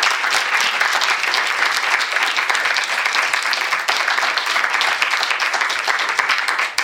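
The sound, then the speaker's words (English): Sustained applause from an audience greeting a lecturer before a talk: thick, even clapping held at a steady level throughout, easing off slightly at the very end. “So please join me in giving him a very warm welcome.”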